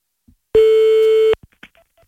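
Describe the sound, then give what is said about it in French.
A telephone tone sounds as a call is placed, a single steady, loud beep held just under a second, followed by a few faint clicks. “on en appelle un autre, Jordan”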